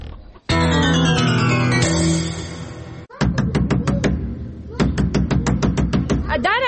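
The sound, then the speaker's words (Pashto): Hurried knocking on a door: after a sustained tonal passage, many quick, sharp raps follow in a rapid, insistent run, with the last stretch coming in a steady fast rhythm. “څوک یې چې داسې په بیړه دروازه ټکیې”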